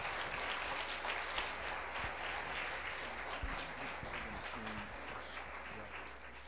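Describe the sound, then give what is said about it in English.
An audience welcomes a host pastor at a church service with sustained applause, a steady dense clatter of clapping hands that continues throughout and eases off slightly toward the end. “Why don't you join us in welcoming our host pastor tonight, Pastor Clifford Hurst, and let's give him a hand.”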